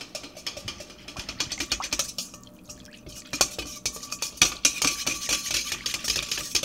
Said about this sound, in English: I'm impatiently whisking the yeast to get it dissolve a little faster.